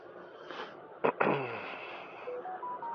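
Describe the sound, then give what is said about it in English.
A mobile phone beeps: a few short, faint electronic tones that step upward in pitch, following a brief sniff-like noise over a quiet background. “Let's see what my phone is saying, it's beeping at me.”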